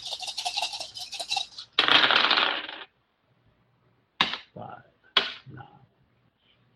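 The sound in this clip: Many dice rattle and clatter during a tabletop role-playing game: a quick shaking rattle, then a louder tumbling roll, followed by two separate sharp clacks that die away into silence.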